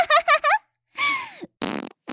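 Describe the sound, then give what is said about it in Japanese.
Fart noises in a comic contest of farting: a quick run of three short squeaky blasts, then a longer tonal one whose pitch sinks at the end, and finally a rough, sputtering burst, all fairly loud with no speech. “わ、またこいた、くっさー”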